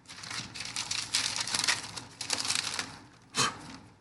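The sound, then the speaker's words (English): A paper envelope being opened: a stretch of crisp rustling and crinkling, then a pause and one short, sharper rip near the end. “Let me open the envelope.”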